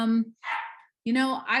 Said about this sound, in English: And the puppy starts barking.